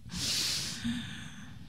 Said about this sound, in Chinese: 一起来深吸缓吐，来吸气